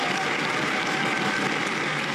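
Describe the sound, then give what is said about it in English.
Warm applause from a theatre audience thanking an author after a talk, a dense, steady wash of many hands clapping at a fairly low level throughout, with no voices standing out. “I want you all right now to take on the job of giving Richard Flanagan a very warm round of thank you applause.”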